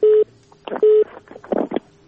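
A telephone call disconnecting and sending its cut-off tone: two loud, steady, mid-pitched beeps about half a second apart, with faint crackly line noise and muffled sounds between them.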